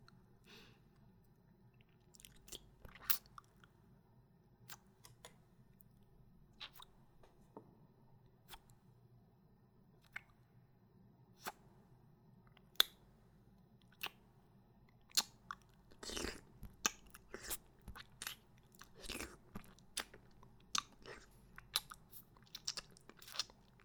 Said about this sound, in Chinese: 外面的已经舔干净了，这里面的也让我吃吧。